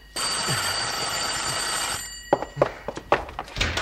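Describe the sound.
A telephone bell rings steadily and loudly for about two seconds, then stops, and a few short, sharp clicks and knocks follow with no one speaking.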